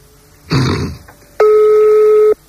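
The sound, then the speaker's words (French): Telephone ringback tone heard while a number to a private household is dialled, a steady electronic tone of about a second following a brief burst of noise, with no talk over it. “on est en train de faire un autre numéro d'un particulier. Ça décroche.”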